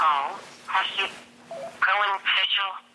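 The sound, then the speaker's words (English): A mobile phone rings during a lecture, its ringtone a melodic tune in a few separate bursts over a steady low hum. “That's my phone.”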